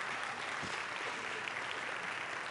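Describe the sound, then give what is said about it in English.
An audience applauds in a church to welcome guests onto the stage, with steady, dense, fairly faint clapping that holds evenly throughout. “Let's give them a big hand as they come”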